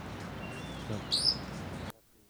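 Wild crossbills call with a thin whistled note and a couple of brief, bright, high chirps over steady background hiss. The sound then ends abruptly.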